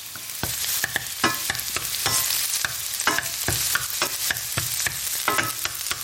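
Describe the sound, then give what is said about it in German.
Onions sizzle in a frying pan for risotto, a steady crackling hiss broken by many sharp scraping strokes as a spoon stirs them, with no voices. “Die Zwiebeln brutzeln hier schon in der Pfanne. Immer mal wieder ein bisschen umrühren, damit nichts anbrennt. Ich mache heute Risotto.”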